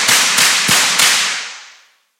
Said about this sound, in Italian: E spara. 1, 2, 3, 4 colpi a casaccio.